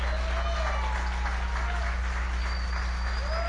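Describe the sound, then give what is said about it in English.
Applause from a church audience greets a guest speaker, an even, continuous wash of clapping at steady volume throughout, with a few cheers rising above it. “Can we give him a TSF 7-foot love welcome to Chris Rock?”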